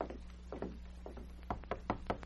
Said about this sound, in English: Why, yes, he's in his office, right over there. Just knock on the door.